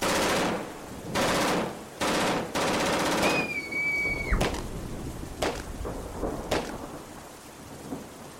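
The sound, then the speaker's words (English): Rapid bursts of gunfire from people shooting at anything that moves, loud sustained volleys followed by scattered single shots and a brief rising whine, with no talk. “They're shooting at innocent people. I think they're just shooting at anything that moves.”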